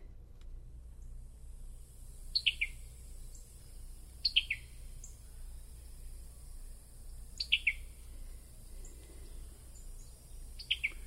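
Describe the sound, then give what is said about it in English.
Summer tanager call notes come in four short bursts of sharp, high, clipped chirps. Each burst holds two or three quick notes, spaced unevenly over a low, steady background hum. “First, here's the call of the summer tanager.”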